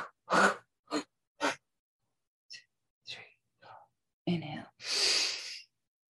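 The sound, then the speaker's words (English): Staccato exhales during a breathing exercise: four short, sharp puffs of breath in quick rhythm, then a few fainter breaths and a longer, fuller breath at the end. “Exhale, staccato.”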